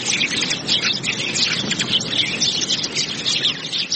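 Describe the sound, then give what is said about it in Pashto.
Birds chirping in a city park, a dense, continuous chorus of high, overlapping tweets with no voices. “خو سږ کال د خلکو ترغاک د مرغانو شور پکې زیات دی.”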